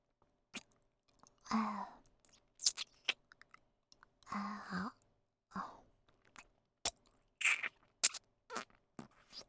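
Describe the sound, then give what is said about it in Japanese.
Someone chews food while eating, making many short crunching and munching bursts with sharp little clicks and near silence between them. “では、早速いただきます。”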